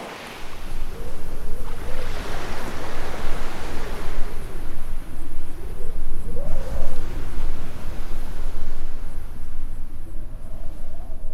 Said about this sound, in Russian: Девушка улыбается морю. Волны обнимают ее босые ноги.